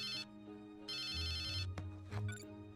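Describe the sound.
A phone ringtone sounds in two loud bursts of bright, repeating electronic tones separated by a short gap, over a steady low hum, followed by a few brief, softer sounds.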